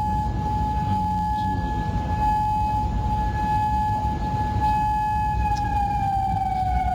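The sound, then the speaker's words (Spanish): Air-raid sirens wail at night in Kuwait. A steady, piercing tone with ringing overtones holds over a constant low rumble and dips slightly in pitch near the end, with no voices. “A esta hora se escuchan sirenas antiaéreas de alerta de ataques en Bahrein y en Kuwait.”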